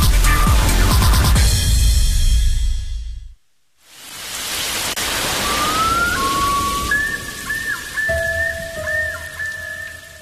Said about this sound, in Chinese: 这一听，雨滴敲击屋檐的声音，撞进空气的声音